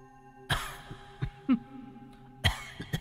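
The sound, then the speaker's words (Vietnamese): An elderly, bedridden woman coughs in a few sharp, dry bursts spaced by pauses, with a hoarse throaty catch between them, fairly faint. “nhưng vóc dáng và tiếng ho đó thì Kha làm sao có thể quên”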